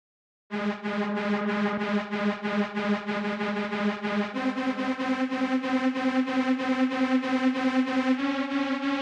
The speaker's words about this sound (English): Right, so we've got an arpeggiator sound, and it's varying between eighth notes, eighth note triplets, and 16th notes.